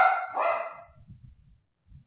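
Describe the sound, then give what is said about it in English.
A dog barks sharply at the start, a couple of quick, bright barks that fade into near silence, with no one speaking. “What's your dog's name? Oh, my dog's name is Skipper. Oh, okay. Yes, I'm sorry. He likes barking at everything.”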